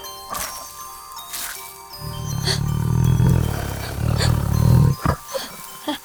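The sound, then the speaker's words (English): A deep, rumbling roar from a 212-year-old tiger swells loudly in two surges over about three seconds after a light jingling, then gives way to a few soft clicks. “Oh, now don't worry. Theodore would never hurt anyone. He just likes the sound of his own voice. He is quite proud of his roar.”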